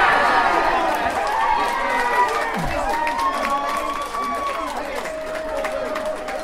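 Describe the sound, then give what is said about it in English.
Crowd cheering at an AFC Wimbledon versus Doncaster Rovers football match: a steady, loud, dense roar of many voices with scattered shouts rising above it, holding an even level throughout without clear breaks. “Wow, the crowd sounds really creep up in your unawares.”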